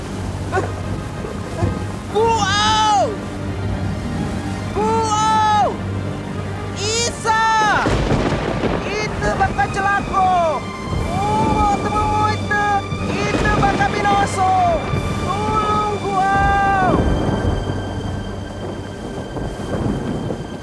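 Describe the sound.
A storm at sea batters a boat: a steady, dense roar of wind, rain and rumbling fills the whole stretch without let-up, with wavering tonal voices rising and falling over it.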